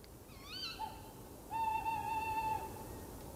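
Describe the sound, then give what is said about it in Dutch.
An owl hoots in reply to a call, faint and alone: a short, wavering cry is followed by a longer, steady, drawn-out hoot. “Zo'n uil die reageert er even op.”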